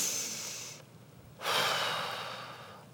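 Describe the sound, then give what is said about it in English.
Deep breaths blown out slowly, two long rushing, airy breaths separated by a brief pause, the second louder and fading gradually, with no talking. “I want you to take 3 deep breaths like this. Blow it out.”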